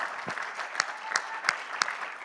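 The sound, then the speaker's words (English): Church audience clapping hands together during a worship service: dense, steady clapping with a few sharper accented claps recurring at an even pace, no voices over it. “Would you clap your hands one more time in the name of Jesus?”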